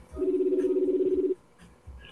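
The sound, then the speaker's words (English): Telephone ringing: a single low, buzzy ring lasting about a second with a fast pulsing texture, then quiet with faint background noise. “Oh, it's ringing.”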